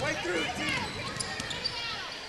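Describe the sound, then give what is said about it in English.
Basketball dribbled on the court during a women's game: a few dull bouncing thumps, partly buried under steady play-by-play talk and crowd noise. “She'll put it on the floor. Too high a dribble”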